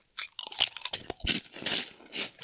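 Crunching of crunchy vegan kropuk crackers eaten from a bag: many crisp bites and chews in an uneven rhythm, loud and sharp, with no talking.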